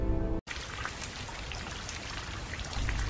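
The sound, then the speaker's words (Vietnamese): Heavy rain pouring down in a sudden downpour. It is a dense, steady, hissing wash of drops that continues without a break after a brief silence at the start. “trời bỗng đổ mưa tầm tã”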